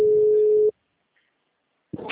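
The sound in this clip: A steady telephone tone after a dropped call sounds for under a second and then cuts off abruptly. Silence follows until a brief burst of sound near the end.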